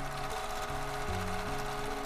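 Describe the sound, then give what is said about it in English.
Steady mechanical whir of a sewing machine stitching fabric bags, a quiet continuous rattling hum with no pauses and no voices. “sitting at her sewing machine, sewing some thing that I got in my mind that I wanted to make. Sewing the bags, you just kind of start sewing.”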